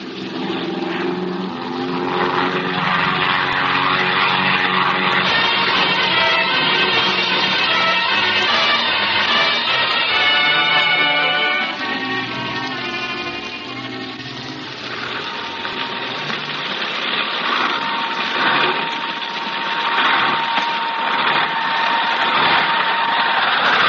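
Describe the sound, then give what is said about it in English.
A propeller airplane coming down to land on a hard surface in rough country, with a loud, steady engine drone that eases for a few seconds midway and then swells again. “I see a clear space alongside the ship. Looks like hard surface down there. Hang on, pals. We're going down.”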